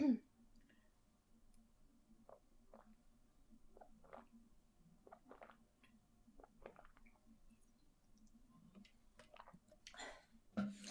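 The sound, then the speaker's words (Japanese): Water is drunk from a 500 ml plastic bottle in faint, scattered gulps and wet mouth clicks, with soft swallowing noises spread irregularly across a quiet stretch. “水飲んだ。”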